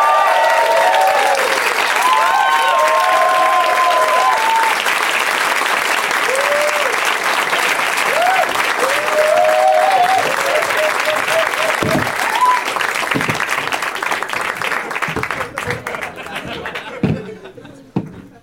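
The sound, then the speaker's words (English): Audience applause welcoming three comedians onto a live comedy stage: dense, loud, sustained clapping mixed with scattered whoops and cheers, holding steady for most of the stretch before thinning and tapering off near the end. “Please give a big warm welcome, you guys, to Sean Sakame, Jimmy Pardo, and Paul F. Tompkins.”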